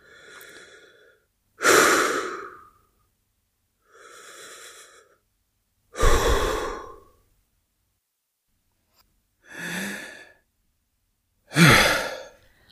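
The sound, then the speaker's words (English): Slow deep breathing: six breath sounds in three cycles, each a softer hissing inhale followed by a louder, fuller exhale, separated by short silences with no other sound. “Just take a few deep breaths for me.”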